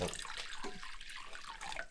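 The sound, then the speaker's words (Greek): Lukewarm water runs from a tap while pancake batter is being prepared. It makes a soft, continuous hiss and splash, faint and unbroken, with no voices. “Χλιαρό το νερό. Λίγο χλιαρό νερό. Έτσι.”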